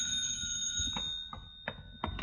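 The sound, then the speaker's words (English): A telephone bell rings with a sustained, high metallic tone that runs through the whole moment, joined by a few soft knocks. “Well, 5 minutes later, while I was looking in the French dictionary for the translation to "Why did I bother in the first place," the telephone rang.”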